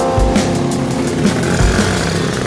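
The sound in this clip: A city bus jolts over potholes during the morning bustle. A steady, loud engine and road rumble carries through, broken by a couple of deep, heavy thumps as the vehicle bounces.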